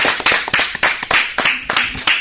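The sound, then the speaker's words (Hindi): A small group applauds during a riddle game. Sharp, bright claps come loud and alone in a quick, steady rhythm throughout. “जोरदार तालियां।”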